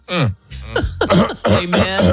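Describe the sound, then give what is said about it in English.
Throat clearing during a church service: several loud, voiced, rasping grunts with sliding pitch, packed close together with brief gaps between them. “Let me clear my throat.”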